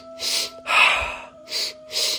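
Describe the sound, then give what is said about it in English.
Breathing-exercise breaths: sniffs in through the nose and a sigh out through the mouth, heard as a few breathy bursts, one longer and fuller than the rest, with short pauses between. “So the first two sniffs are through the nose. The first breath is into the belly. Second sniff into the chest. And third is a sigh out the mouth. So it sounds like this.”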